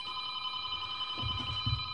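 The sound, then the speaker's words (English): A telephone ringing with a steady electronic tone held throughout, and a couple of low thumps near the end. “Amazing, you announce a number and sometimes the phone rings.”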